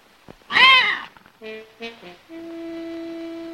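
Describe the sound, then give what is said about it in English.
A bristling kitten lets out one harsh, wavering yowl, a loud burst of about half a second against a quiet background. “Oliver puts down the box and takes out the kitten, which backs away from her. Irena reaches out. The kitten bristles its fur and arches its back.”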